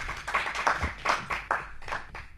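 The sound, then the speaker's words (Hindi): Hand clapping from an audience welcomes a performer to the stage. The claps are quiet and irregular, arriving as a scattered series of soft bursts with no talk over them. “अब मंच पर आमंत्रित कर रही हूँ नव नित्य विनायक को, करतल ध्वनि से हम स्वागत करेंगे।”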